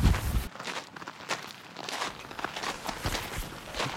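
Footsteps of two people walking outdoors, heading out of a prison's grounds: many crisp, evenly paced steps with a scuffing texture, continuing steadily throughout without talk.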